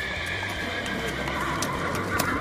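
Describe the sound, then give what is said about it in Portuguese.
Horses arrive at a kingdom, neighing and whinnying over a dense wash of hoof clip-clops and broad background noise, with no talk. “os cavalos de vocês chegam no reino”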